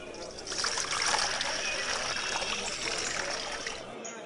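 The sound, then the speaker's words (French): Water poured into a trench around an altar, a steady splashing, trickling rush that holds at an even level for about four seconds before it stops. “Maintenant, remplissez d'eau le fossé jusqu'à ce que l'eau coule tout autour de l'autel.”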